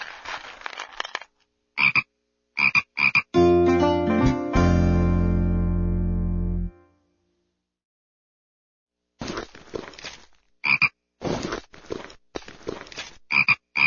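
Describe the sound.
A frog kept in a tank croaks: a long, low, buzzing croak holds for about three seconds between clusters of short, rattling clicks, with a stretch of silence before the clicks return.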